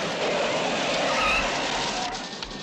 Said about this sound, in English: The gang close in and race alongside Velma and Jean, forcing them off the road.